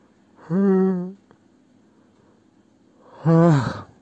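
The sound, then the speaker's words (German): Two separate yawns on camera, each a voiced, drawn-out breathy vocal sound with a falling tone, the second slightly longer and rougher, with quiet background between them. “Und wollte auch nur mal ganz kurz Hallo sagen, einmal in die Kamera gähnen.”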